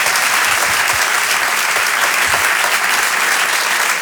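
Loud audience applause greeting an introduced guest on stage, a dense and steady wash of many hands clapping that holds at full strength for about four seconds with no voices over it.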